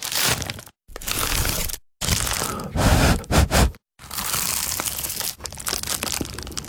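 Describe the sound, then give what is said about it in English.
Someone bites into a crunchy award-winning pie, making several loud, crackling crunch bursts broken by short silent gaps and ending in a long, crisp crunching run. “that was the sound of an award-winning dad's pie.”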